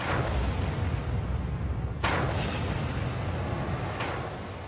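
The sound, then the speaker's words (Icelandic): An explosion at a nuclear power plant hit by a tsunami produces a continuous deep rumbling roar broken by two sharp cracks a couple of seconds apart, with the rumble easing slightly toward the end. “Klukkan 6 mínútur yfir 3:30 síðdegis, sólarhring eftir að flóðbylgjan skall á kjarnorkuverinu, hvað svo við mikil sprenging í Fukushima Daiichi.”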